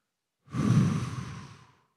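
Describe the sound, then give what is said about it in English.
A single deep, airy breath that lasts just over a second. It swells quickly, holds steady and then fades out, with no voices. “breathing in a deep breath of the Holy Spirit. And then breathing out what's troubling you.”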